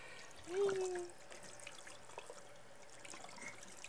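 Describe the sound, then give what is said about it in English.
Water runs and trickles faintly while a face is being washed, a soft, low-level splashing and dribbling that stays quiet and continuous. “Washing face. I love to do that to you.”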